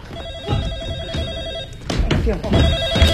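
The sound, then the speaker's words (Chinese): A telephone rings in two long bursts of rapid electronic trilling, separated by a short pause, with voices and other sounds mixed over the ringing. “电话。”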